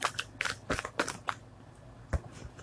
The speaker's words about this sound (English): I'm gonna pull a few cards.